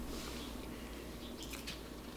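Someone bites into and chews toast topped with cheese and jam, making soft, quiet, moist crunching sounds. A few brief, crisper crunches come near the end.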